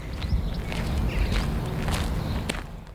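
Footsteps walk down a garden toward a log pile beside a small pond. The steps are soft and irregular over a low rumble, faint and with no talk.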